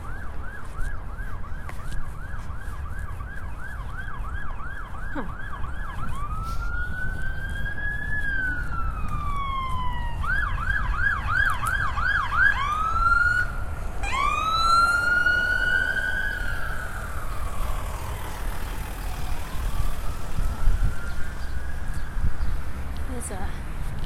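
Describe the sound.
Emergency vehicle siren passing by. It alternates between quick repeated warbling sweeps and slower long wails that rise and fall in pitch, loud over a steady low traffic rumble.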